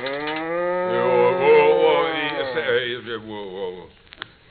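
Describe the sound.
A cow in a barn moos before morning milking: one long, loud, drawn-out call that wavers in pitch, then fades into faint scattered sounds.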